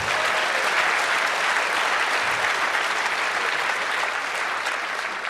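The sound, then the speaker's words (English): Applause from an audience at a technical conference talk, honouring the network operations help desk team: loud, dense, even clapping sustained throughout without a break. “The NOC Help Desk, I think they can have one applause more”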